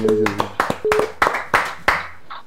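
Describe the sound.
Church audience clapping during a service: several sharp, separate hand claps at an uneven pace, with a voice speaking between and over them.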